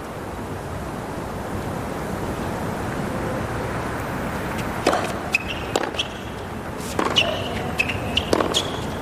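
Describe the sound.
Tennis ball strikes during a professional match rally, including a backhand cross-court shot: a few crisp, sharp pops of racket on ball over a steady wash of crowd and court noise.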